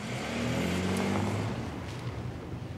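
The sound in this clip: A car accelerating away, its engine giving a continuous loud roar with strong low droning tones that persists through the whole clip with no talking.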